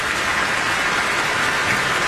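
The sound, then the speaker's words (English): An audience applauds in a steady, dense wash of clapping that stays at an even, loud level throughout, with no voices standing out. “they're applauding for you.”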